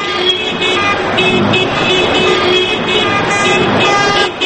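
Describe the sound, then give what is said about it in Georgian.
Car horns blare from an activist motorcade driving through central Tbilisi streets to protest fuel prices. Sustained, overlapping honks sound continuously over loud traffic noise. “აქტივისტებისგან შემდგარმა საავტომობილო კოლონამ თბილისის ცენტრალური ქუჩები ხმოვანი სიგნალების თანხლებით შემოიარა”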